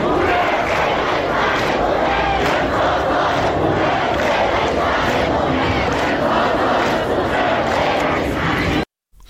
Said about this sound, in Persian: امروز هم دانشگاهیان آقای روحی تجمع اعتراضی پرتعدادی رو شکل دادن که صدای یکی از اعتراضهای اونها رو میتونیم بشنویم